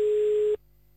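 A telephone line tone while calling someone back: a steady single-pitch tone lasting about half a second, a brief silence, then the same tone beginning again.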